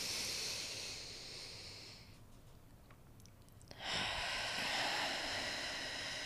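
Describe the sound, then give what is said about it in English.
A deep breath drawn in through the nose during a guided relaxation exercise, one hand on the heart and one on the belly: a long, soft, airy hiss, a quieter lull, then another long rushing breath, with no talk. “we start off with our deep breath. One hand on the heart, one hand on the belly. Breathe in through the nose.”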